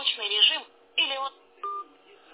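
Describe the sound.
Telephone keypad dialing tones from a desk phone handset, three separate beeping bursts, the first longest, with short gaps between them.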